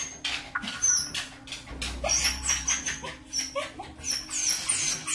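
A dog cries and whimpers after being briefly separated from its owner, giving many high, repeated whines and yelps in an unbroken, anxious run.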